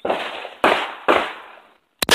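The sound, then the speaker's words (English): Gunshots from pistols and a shotgun at a gun range: three loud, sharp reports with long ringing decays, spaced under a second apart, then a brief silence and another sharp crack that is cut off at the end. “We went to a gun range today, and we shot two pistols and one shotgun.”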